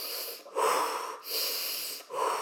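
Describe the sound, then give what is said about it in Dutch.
A voice imitates heavy hyperventilating breathing: several loud, raspy, rapid breaths in and out follow each other in an even rhythm, with no talk. “De hele tijd zo, hele tijd zo te ademen en dan...”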